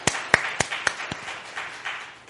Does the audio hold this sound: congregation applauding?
yes